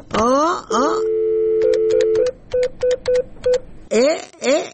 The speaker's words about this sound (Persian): شما صبر کنین که من زنگ بزنم.